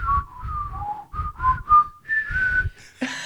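A person whistles a slow pop melody in imitation of a panpipe cover, with about nine clear sustained notes that step gently up and down and then rise to higher held tones near the end, followed by a brief noisy burst.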